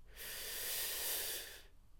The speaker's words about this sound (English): we're going to take 3 deep breaths in and out to just center into where we are now. Let's go. Breathe in.